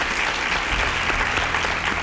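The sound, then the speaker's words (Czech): Brief applause, dense and even clapping that holds at a steady level for about two seconds. “Ano, ano, tleskám.”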